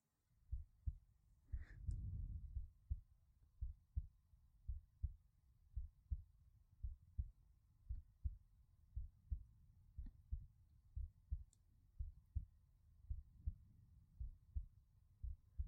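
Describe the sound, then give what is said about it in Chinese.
A human heartbeat thumps in a slow, regular rhythm: many soft, low, muffled beats repeating evenly throughout, quiet and without any talk. “听着姐姐的心跳，会不会很安心呢？”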